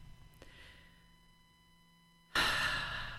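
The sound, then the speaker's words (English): A slow breath out through the mouth during a guided breathing exercise: a loud, airy, steady hiss that starts abruptly after near-silence and carries on to the end. “take a slow breath in through your nose and let it out on a slow breath out through your mouth.”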